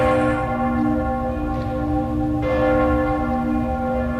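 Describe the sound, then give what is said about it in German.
The church bells of Cologne Cathedral ring with deep, overlapping metallic tones. The sustained hum carries steadily throughout, and a few fresh strikes renew the brightness over the resonating drone. “Das Rathaus von Detmold. Nein, Spaß. Kölner Dom.”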